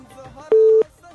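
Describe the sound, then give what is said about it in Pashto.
A single short, steady electronic telephone tone, like a busy signal after a call drops, sounds once alone for about a third of a second between faint murmuring voice sounds. “متاسفانه اړیکه پریشوا”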